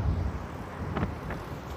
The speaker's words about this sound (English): As you can hear, it is still windy